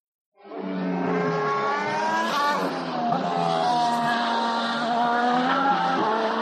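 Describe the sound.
Formula 1 race cars at the last corner of the Spa Grand Prix circuit: a continuous high, whining engine roar whose pitch keeps shifting with throttle and gear changes, loud and unbroken, with no talk.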